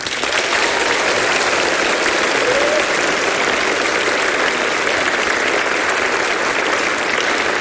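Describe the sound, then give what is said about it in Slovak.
Steady audience applause at a live school event greeting viewers in schools across Slovakia: a dense, even wash of clapping that holds at constant loudness for the whole stretch, with no voices over it. “Tento potlesk, ktorý teraz zaznie, poputuje všetkým našim divákom v školách na celom Slovensku.”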